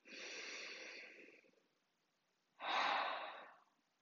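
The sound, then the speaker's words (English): A deep breath drawn in is followed, after a pause, by an exhale through the mouth. The inhale is long and airy, and the exhale is a stronger, breathy rush that tapers off. “So let's take a deep breath in together and exhale through the mouth.”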